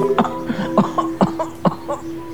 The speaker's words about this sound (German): Hat sie vielleicht die Alte gehustet?